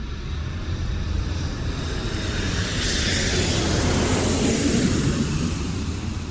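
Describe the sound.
Airplane engine roar at San Luis Obispo County Regional Airport: a steady, broad rushing drone that swells slightly in the middle and holds loud throughout, with no voices.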